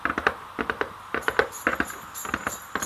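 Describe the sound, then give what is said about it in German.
Hoofbeats of a reindeer galloping off, a story sound effect: a steady, rhythmic run of clip-clop thuds in quick pairs, at moderate volume with no voices. “Er springt auf und galoppiert los.”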